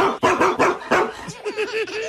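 A dog barks in a quick, loud run of sharp barks and yips, with a few higher whimpering notes mixed in near the end.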